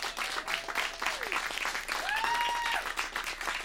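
Audience cheering and applauding after a song at a live band performance: a dense, steady wash of loud clapping with scattered cheers and whoops running throughout.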